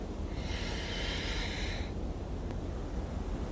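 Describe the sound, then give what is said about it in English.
A single nasal inhale during a guided breathing exercise: a soft, airy hiss lasting under two seconds, followed by quiet low background noise. “Inhale through the nose.”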